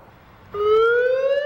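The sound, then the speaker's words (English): An emergency siren system test meant to warn town residents of a nuclear emergency: a loud, steady wailing tone begins after a brief quiet moment and climbs slowly in pitch, with rich harmonics. “This is a test of the emergency siren system. This is only a test.”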